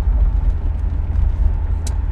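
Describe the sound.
A car driving on a road gives a steady, loud, low rumble of engine and tyres that drones without a break, with a brief higher hiss near the end.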